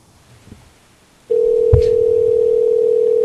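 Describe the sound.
An outgoing telephone call rings with a steady electronic tone. It starts abruptly after a short quiet stretch and holds loud and unbroken, with a brief click partway through.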